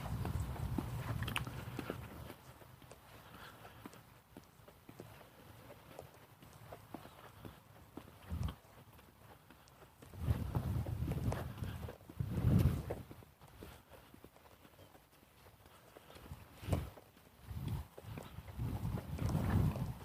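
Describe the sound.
Footsteps walk outdoors along a sidewalk after a snowstorm, with snow still lying on the grass. A steady run of scuffing, crunching footfalls continues throughout, with a few louder thumps standing out.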